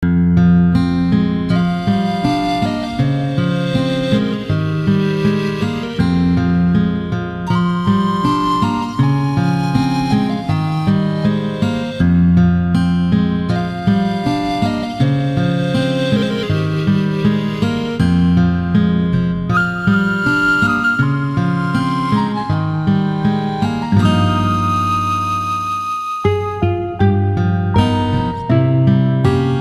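A remixed Final Fantasy XI game music track plays alone: a steady, loud melodic piece with layered harmonies and a firm low line, briefly thinning out as the bass drops away near the end before resuming.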